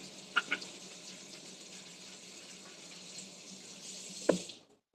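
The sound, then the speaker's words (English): Hands washed under a running kitchen tap: a steady, soft hiss of flowing water with two light knocks near the start and a sharper knock just before the flow cuts off abruptly. “Wash my hands.”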